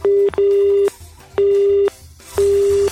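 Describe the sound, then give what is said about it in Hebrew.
A telephone busy signal follows a dialed call that goes unanswered: a steady mid-pitched tone pulsing on and off in half-second beeps about once per second, four beeps in all, with no talk. “מסננים, כנראה הם רואים מספר חסוי. ניסינו לחייג לחיה”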